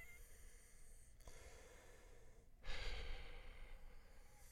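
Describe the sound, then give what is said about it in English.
Labored breathing of a dying man, recorded in his New York studio: a few faint, heavy breaths, one brief and a later longer rasping one, over a quiet background with no talking. “You are listening to the labored breaths of an artist who is dying.”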